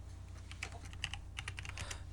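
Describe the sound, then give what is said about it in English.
Fast typing on a computer keyboard: a quiet, irregular stream of crisp key clicks with no voices. “as you type away”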